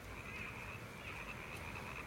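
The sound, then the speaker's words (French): Frogs croak in marshes below quiet Aragon mountains, forming a faint, steady, unbroken chorus with a constant high trilling band throughout and no voices. “Sauf les grenouilles. Ce chant entêtant vient des marais”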